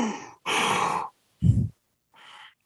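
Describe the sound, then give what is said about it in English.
A voice imitates ragged, wheezing breathing, mimicking a masked horror-film killer unable to breathe from COVID-19: four raspy breaths with gaps between them, the third deeper and louder, the last one faint. “He can't breathe because he has COVID-19. He's just walking around with a surgical mask on instead of a Halloween mask”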